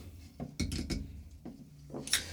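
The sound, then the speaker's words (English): A beer bottle is opened for drinking, with a few glassy clinks and knocks of handling and then a short, bright pop near the end. “let's start with 14 and go up. You want to? Okay. Why not? Yeah. All right, crack the 14 open.”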